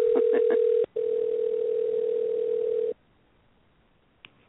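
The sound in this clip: A telephone line signals an incoming call: a few short pulsed beeps, then a long, steady mid-pitched tone of about two seconds that cuts off, leaving near silence broken by one faint click.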